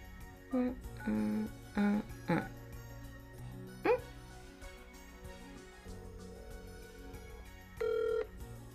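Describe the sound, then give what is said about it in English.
Electronic tones of a telephone call being placed and ringing out: a series of short beeps and tonal bursts, then a quiet stretch and a longer ringing tone near the end. “Try Nick Vielle again real quick. Let's see if we can get him on the pod.”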